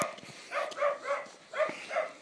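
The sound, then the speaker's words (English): A small cocker spaniel gives several soft, whiny yelps and whimpers in a quick, uneven series. The sounds are faint and nasal, with short gaps between them. “Oh yes, that's a little cocker spaniel. And he's a nice little dog.”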